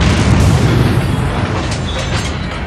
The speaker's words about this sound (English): What was that? I think it was your wish coming true. The palace has exploded!